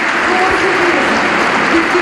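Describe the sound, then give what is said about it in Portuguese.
Standing ovation at a party congress, the hall applauding after the health minister's speech: thick, continuous clapping at a loud, even level from start to end. “Terminar agora a intervenção com aplausos que são ouvidos e audíveis nesta altura e com o aplauso de pé do Congresso.”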